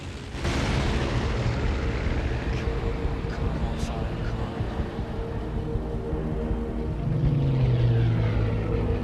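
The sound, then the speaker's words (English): Loud, continuous roar of aircraft engines as a Spitfire fighter chases a Heinkel bomber during an air attack on a destroyer, the dense rumble holding steady throughout, with a droning engine tone swelling near the end. “sees a Spitfire chase away a Heinkel bomber. Collins watches the fighter arc up and above its quarry.”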